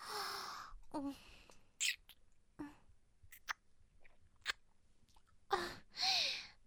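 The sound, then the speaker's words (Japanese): A voice playfully pretends to eat someone's cheeks with wet smacks, nibbling bites and crunchy chewing noises, scattered in short separate bursts between soft breathy vocal sounds. “ほっぺ食べちゃうね。”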